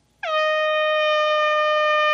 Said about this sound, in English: What's an air horn? Air horn, yeah.